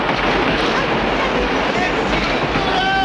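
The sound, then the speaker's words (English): A passenger train pulling into a station, a loud, continuous low rumble and rolling clatter of wheels, with a thin high squeal emerging near the end. “As the train pulls into the station”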